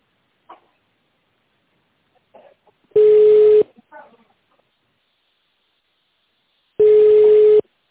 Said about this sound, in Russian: Если вы знаете внутренний номер сотрудника, переведите ваш телефон в тональный режим и наберите номер.